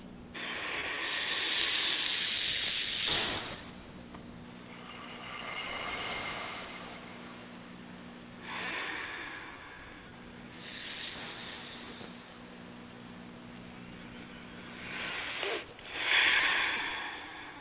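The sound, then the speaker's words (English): Slow, deep breathing during a guided relaxation, heard as several broad, hissing swells that rise and fade in long cycles over a faint low hum, with no talking. “let's take a few deep breaths.”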